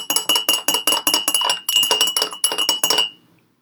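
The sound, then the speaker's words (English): A spoon clinks against a glass while stirring sugar into coffee: many rapid, bright, evenly spaced taps ringing in a steady rhythm, with a brief pause partway, then stopping abruptly with a short fading ring. “Okay, coffee's in. Now I'm just going to give it a stir until all that sugar dissolves.”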